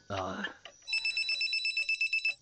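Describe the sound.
A telephone rings for an incoming call. After a brief voice, a rapid electronic trill of steady high tones pulses repeatedly without pause.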